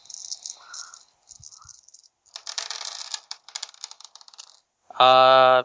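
Six dice are rolled for a tabletop role-playing game check. A shaken rattle is followed by a brief pause, then a longer clatter of dice tumbling across a surface that dies away in scattered clicks.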